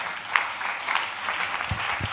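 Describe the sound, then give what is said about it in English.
An audience claps hands in a steady, dense patter of many palms, moderately loud throughout with a couple of low thumps near the end and no clear speech. “Oh, you want to clap those hands?”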